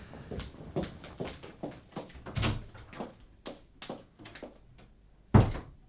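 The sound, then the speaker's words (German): A door opening and closing: a series of soft thuds, clicks and handling knocks, ending in one louder, heavier thump near the end. “Nimm diese Tür dort.”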